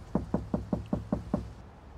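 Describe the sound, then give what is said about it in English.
Seven knocks on a front door, made by a visitor climbing the steps, land in an even, quick rhythm. Each rap is firm and dull, with nothing else heard. “He checks his phone before climbing the steps to the front door. He hesitates and takes a deep breath, then knocks.”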